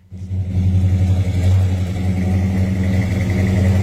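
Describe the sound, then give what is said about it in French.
Deep rumble of a 440-cubic-inch, 375 hp V8 breathing through dual 2.5-inch straight-pipe exhaust with two small resonators. It starts abruptly and holds loud, throbbing and low throughout, with no talk. “Un petit coup de gaz. Deux pouces et demi d'exhaust double, d'en avant en arrière, straight pipe.”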